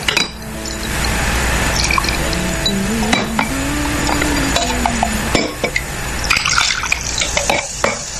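A drink is poured into a glass in a steady gush of liquid, with a tone that rises as the glass fills, then a scatter of clinks and dribbles toward the end.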